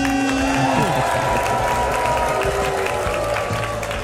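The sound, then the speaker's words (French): A studio audience applauds and cheers at a telethon-style show: a dense, steady roar of clapping and cheers that stays loud throughout. “Faites un maximum de bruit pour Isabelle Balkany.”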